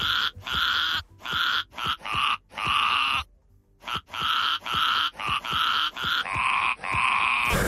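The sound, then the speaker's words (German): A ram from Eppstein in southern Hesse bleats loudly, with many short bleats cut into a rhythmic, tune-like sequence and one brief pause near the middle. “Streusel ist der Schafsbock von Julia Schomburg aus Eppstein in Südhessen. So klingt er auf der Weide und so klingt er bei uns im Radio.”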